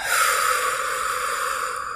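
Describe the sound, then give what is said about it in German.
A deep breath during a guided relaxation breathing exercise: a soft, airy rush of air that holds steady for about two seconds, with no talking over it. “Nochmal tief durch die Nase ein. Durch den Mund wieder aus.”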